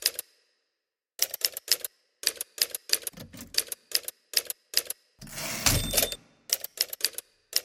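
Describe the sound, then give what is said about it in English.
Clacking typewriter keys while typing, backspacing and striking X's over words. Many sharp keystrokes come in uneven bursts with short gaps, broken midway by a longer, louder mechanical whirring stretch. “sometimes I have to backspace over words and type X's through them because I don't have any white out.”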